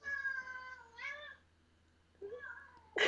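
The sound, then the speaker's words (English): A domestic cat meows twice, first a long drawn-out tonal call that bends upward near its end, then after a short pause a briefer, fainter cry. “I believe that's a cat.”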